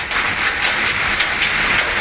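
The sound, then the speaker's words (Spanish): Heavy storm rain pours down during an afternoon thunderstorm in Sabadell, Catalonia, a dense, steady, loud hiss with no voices. “para fuertes las tormentas que descargaron ayer por la tarde en Cataluña. Sí caía en Sabadell.”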